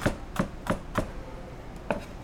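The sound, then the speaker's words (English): A knife dicing raw rhubarb on a cutting board: five crisp chopping thuds, four in a quick, even rhythm, then a short pause before the last. “And you can just dice it, and we're going to leave it raw.”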